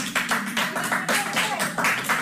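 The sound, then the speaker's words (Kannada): An audience claps for the chief guest, a swami, at a gathering. Many loud, crisp claps arrive in uneven clusters and pulses that blend into ongoing applause. “ಶೀಟಿ ಗೀಟಿ ಹೊಡಿಬೇಡಿ, ಚಪ್ಪಾಳೆ ಚಪ್ಪಾಳೆ.”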